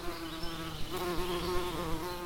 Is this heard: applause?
no